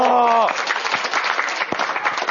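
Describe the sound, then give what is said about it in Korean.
Applause from a church audience after a correct answer, steady dense clapping from many hands. A voice gives a short exclamation that falls in pitch just before the clapping begins. “정답을 맞춰버리셨네요. 와, 박수 한번 주세요.”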